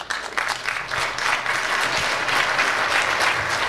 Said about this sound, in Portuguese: Essa merece palmas.